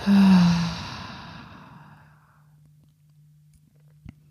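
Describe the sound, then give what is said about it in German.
A long breath out through the mouth during a guided relaxation breathing exercise, starting as a loud airy rush and fading slowly over about two seconds, followed by a quiet low hum and a brief soft click. “Atme aus über den Mund. Versuch dabei auch Spannung gehen zu lassen. Ein letztes Mal einatmen. Mhm und ausatmen.”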